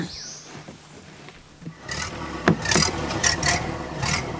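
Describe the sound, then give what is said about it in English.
Ford Model A car on a mountain starting up: after a quieter opening, a loud, rough, rattling mechanical noise cuts in partway through and keeps going with uneven knocks. “Popcorn gets in his Model A and drives off”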